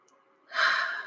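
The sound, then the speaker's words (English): A single deep breath taken during a guided relaxation exercise: after a near-silent start, a long, fairly loud breathy exhale like a sigh rises halfway through and holds steady to the end, with no talking. “Deep breath, let it go.”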